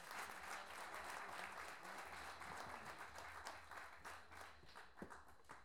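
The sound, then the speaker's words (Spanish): Audience applause at a national improvised-verse competition, steady dense clapping from a crowd that holds loud throughout and tapers slightly toward the end, with no talk over it. “Aplausos.”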